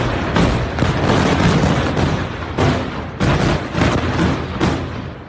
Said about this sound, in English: The massive blasts in the heavily populated area of southern Beirut just after 6 p.m. local time flattened high-rise buildings and sent huge plumes of smoke into the air.